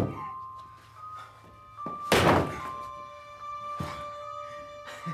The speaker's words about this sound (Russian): Он стучится в дверь.